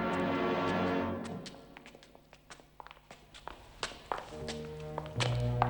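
Footsteps of three men climbing a grim stairwell in a block of flats: many irregular, hard taps and dull thuds of shoes on steps, moving at a methodical, uneven pace.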